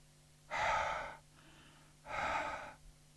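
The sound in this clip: A voice imitating breathing with two loud, breathy huffs of similar length, separated by a faint, softer breath, without spoken words.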